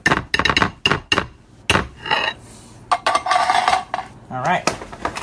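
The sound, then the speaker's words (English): Cheesy casserole is scraped and spooned from a microwave-safe bowl into a casserole dish. Many quick clinks and knocks of a utensil against the dishes come in irregular bursts, mixed with softer scraping. “So transfer it from the microwave safe bowl into your casserole dish, which we are doing now.”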